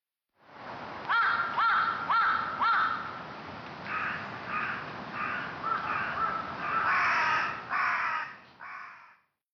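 Crows cawing: many harsh, rasping caws in a steady repeating rhythm, the first four evenly spaced, then further calls that grow louder and denser toward the end, with no talk.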